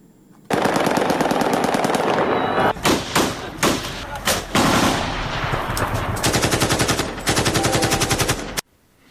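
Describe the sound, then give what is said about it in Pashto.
Celebratory gunfire into the air in Afghanistan after a cricket victory: loud, sustained volleys of rapid automatic shots with a few short gaps, dense rattling bursts running for most of the nine seconds before cutting off. “دغه د کومې ډلې یا مخامخ نښتې ډزې نه دي، بلکې هغه هوایي ډزې دي چې خلک یې د کرکټ د بریا په خوشحالۍ کې کوي.”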